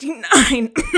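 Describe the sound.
Someone clears dust from their throat in two short, rough, guttural bursts, loud and in quick succession.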